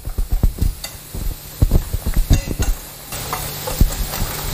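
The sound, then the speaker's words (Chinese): Stirring of a mixture of infant and animal milk powder with hot water, firm spoon strokes giving many irregular clicking and scraping knocks against the container, fairly loud and with no voices. “这个兑奶得使劲的搅拌，尤其是这第一次的搅拌，得给它那个充分的搅匀了”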